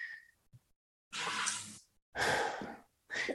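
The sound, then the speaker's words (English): A person takes a deep breath: a long, loud, breathy inhale followed by an equally long exhale, and then another breath begins. No one speaks. “I'll take a deep breath.”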